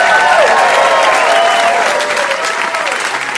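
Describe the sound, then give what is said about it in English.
A live audience applauds the guests: loud, sustained clapping from a large crowd, with a few voices cheering above it before the clapping eases slightly. “And can we get one more hand here for all our guests, please?”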